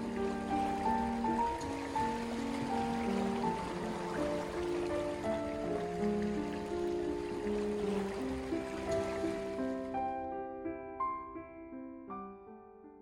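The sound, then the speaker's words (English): Gentle waves lap ashore as a soft, steady wash, heard quietly beneath a calm, melodic tune of sustained notes. The water noise stops near the end, leaving the notes to trail off alone. “Here's the sound of waves gently lapping ashore to calm down an anger you may have.”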